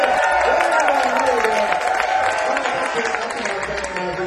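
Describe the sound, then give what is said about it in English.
An audience cheers and applauds at a live music show on a Saturday afternoon. The clapping and shouting voices form a loud, continuous wash that eases off slightly toward the end. “Let's hear some noise here at Gray Fox on Saturday afternoon.”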